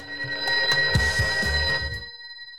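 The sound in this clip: A telephone rings at the opening of a played song, a steady bright ringing tone layered over rhythmic pulses that stops abruptly near the end, leaving the tone alone.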